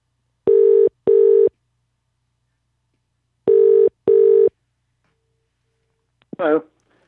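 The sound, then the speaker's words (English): A telephone rings in repeated double rings: two pairs of steady, identical tones separated by a silent pause. A short voice is heard at the end. “I love the way the phone rings.”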